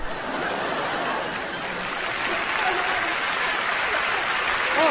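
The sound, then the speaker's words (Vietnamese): An audience applauds steadily at a live stage show, a dense, even wash of many hands clapping that holds at a constant level for the whole stretch. “Thì em thấy các bà cười to và vỗ tay to hơn các ông đấy.”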